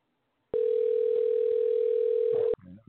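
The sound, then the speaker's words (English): A telephone dial tone heard while dialing: a steady, loud, unbroken hum that begins abruptly, holds for about two seconds, then cuts off sharply and is followed by a brief muffled sound. “Dialing. Give me a second. Dial, baby.”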